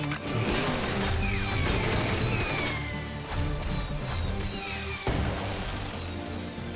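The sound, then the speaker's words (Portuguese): Machine buttons being pressed in quick succession: a dense, busy clatter of mechanical clicks and crashes mixed with many bright descending electronic whistles, loud and continuous throughout. “Michelangelo, aperte os botões. Vou apertar todos!”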